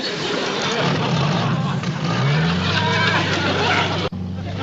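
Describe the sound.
A car drives off, its engine note climbing as it pulls away and then settling into a steady, loud drone beneath a broad wash of road noise.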